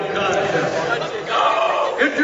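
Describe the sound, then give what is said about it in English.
Crowd of Oakdale fans at a school game, a steady, loud murmur of many mixed voices that swells slightly midway and holds to the end. “They got a huge crowd from Oakdale behind us.”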